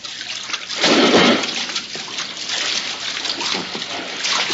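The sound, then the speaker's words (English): Someone swimming on the surface of a lagoon while wearing a mask: a loud burst of splashing comes early, followed by continuous sloshing and churning water at a steady, moderate level. “If you will swim to the center on the surface, we will give you the exact location.”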